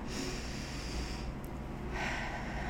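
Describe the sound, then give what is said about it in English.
A slow, deep breath taken together, heard as a soft, steady airy rush that stays quiet throughout, with a brief lull midway. “let's just take a deep breath together”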